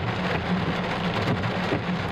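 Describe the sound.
Heavy downpour of rain in Antakya and Defne, Hatay, during flooding, a dense, continuous hiss of falling water with no pauses, steady and fairly loud over the whole short stretch.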